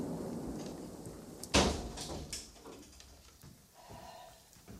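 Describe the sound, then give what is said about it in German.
A window being shut: a sharp knock-like thud stands out, followed by softer rattles and low shuffling noise that fade out. “Würde bitte jemand das Fenster schließen?”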